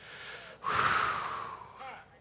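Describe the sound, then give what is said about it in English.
A deep, audible breath taken during a church sermon, a drawn-out airy rush lasting over a second, with a faint voiced tone running through it and nothing spoken. “So this morning, I want you to take a deep breath.”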